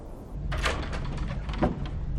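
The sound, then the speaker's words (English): Double doors into a dim master bedroom open with a soft sliding scrape and a second muffled knock a moment later, both faint over a low, steady background rumble. “Inside, he enters double doors into a dim master bedroom.”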